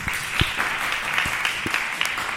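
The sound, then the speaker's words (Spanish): Applause from a group greeting a guest at the close of a radio discussion on disability and cooperation: steady, dense clapping throughout, with a few louder claps standing out from the sustained patter. “Vamos a darle un aplauso para Manuel.”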